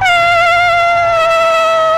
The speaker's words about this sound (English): Very good. That is a ram's horn.